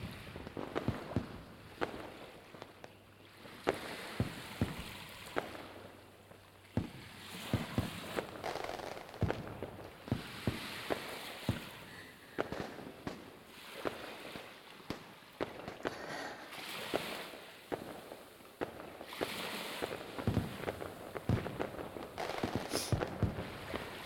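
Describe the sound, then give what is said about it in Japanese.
Distant fireworks pop faintly and irregularly, with many soft bangs and crackles scattered over a constant low rush of sea waves. “遠くから聞こえる花火。”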